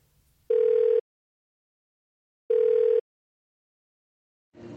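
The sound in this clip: A telephone ringback tone plays while an outgoing call to a friend in Samarinda waits to connect. Two steady, mid-pitched tone bursts of about half a second each are separated by a pause, and then a voice begins.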